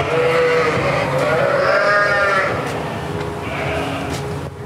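Sheep bleat in a sheepfold: many overlapping, wavering cries form a loud, continuous chorus of livestock with a steady rumble underneath.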